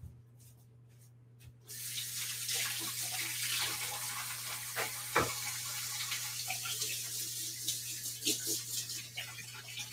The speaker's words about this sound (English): Let me wash my hands really quick.